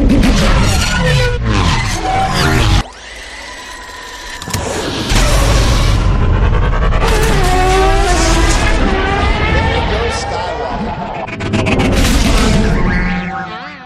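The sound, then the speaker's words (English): Pod racing engines roar and whine in loud, layered bursts, their harmonics sweeping up and down as the racers pass. A brief lull early on gives way to a sustained roar that swells again toward the end. “Now this is pod racing. Pod racing.”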